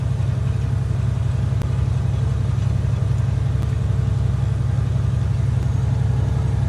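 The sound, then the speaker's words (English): Steady low engine drone from a car driving around Thunder Bay during the 2022 Canadian trucker convoy. The hum and road noise stay constant, broken only by a few faint clicks. “So we're driving around Thunder Bay.”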